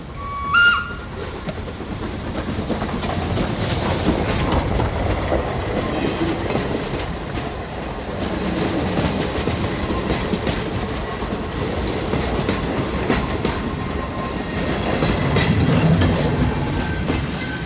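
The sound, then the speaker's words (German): A four-cylinder locomotive built by Dubusque in 1887 passes, with a loud, continuous rumble and clickety-clack of wheels on rails that holds steady throughout, and a brief whistle-like tone near the start. “Hast du die Lokomotive gesehen, Onkel Fabre? Ja. Das war eine Vierzylinder-Lokomotive von Dubusque. 1887 konstruiert.”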